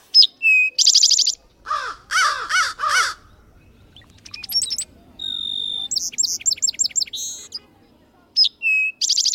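Birds sing in bursts of clear whistled phrases, rapid trills and a few harsh, buzzy notes, with short gaps between phrases and a faint low rumble underneath.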